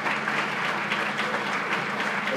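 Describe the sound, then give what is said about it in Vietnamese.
An audience applauds to thank people at a gathering, a dense, steady wash of clapping that stays even and loud throughout. “chúng ta hãy vỗ tay để cảm ơn những bạn này”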